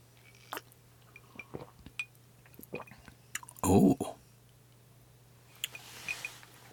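Someone takes a single loud slurping sip of cold brew tea, a short burst standing out against faint scattered mouth clicks and small noises.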